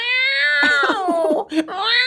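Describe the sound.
A person's voice imitates a cat yowling while it poops, with drawn-out, wavering, high-pitched wails that break briefly near the end before the whine resumes.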